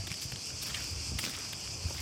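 Faint footsteps of people walking slowly uphill along a path on a hot day, soft irregular steps over a steady background hiss.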